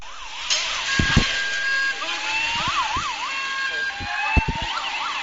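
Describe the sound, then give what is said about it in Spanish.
Police sirens wail and yelp during a street police intervention against a man armed with katanas. Several sharp knocks and thuds cut through the siren, and voices sit beneath. “te voy a poner, para que oigan los oyentes, parte del sonido de la intervención policial enfrentándose a este individuo, a ver si somos capaces de reproducirlo.”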